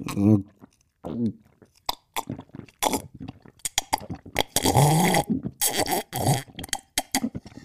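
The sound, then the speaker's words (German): Someone drinks cocoa made with Suchard Express powder, with uneven wet gulps, slurps and throaty swallowing noises. The bursts are separated by short pauses and mixed with grunting vocal sounds. “Und jetzt trinke ich einen schönen Kakao mit Pulver von Suchard Express.”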